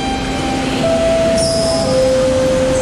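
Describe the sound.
A train pulls into a station with a continuous rolling rumble, while a sustained tonal squeal from the wheels or brakes steps down in pitch, and a faint high whine joins partway through.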